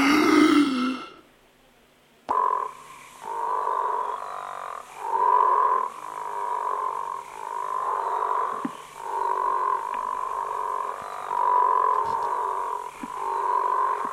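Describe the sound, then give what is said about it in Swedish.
A frog croaks repeatedly: many low, rasping, burping croaks follow one another in a steady, evenly paced rhythm after a short, different burst at the start. “Nu kommer grodan. Ja, grodan, ja.”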